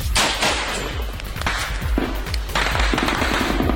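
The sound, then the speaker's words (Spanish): Machine gun fire during an ambush in Tayahua, loud rapid bursts of sharp shots running almost continuously with brief gaps, no voices. “cuando de nuevo se escucharon las ametralladoras”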